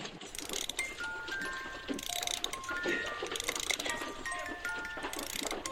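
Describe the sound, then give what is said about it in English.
A music box plays a tune, a string of bright, high tinkling notes ringing out one after another over a steady background hiss. “Little kid in there just started that music box. Ain't it as pretty as anything you ever heard?”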